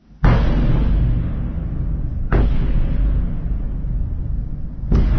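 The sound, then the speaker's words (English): Three heavy explosions from an overnight Russian bombardment of Kyiv. Each is a sudden deep boom that swells into a long rumbling roar, barely fading before the next one hits. “We start in Ukraine and the all-too-familiar sound of Russian bombardment in the capital Kyiv overnight.”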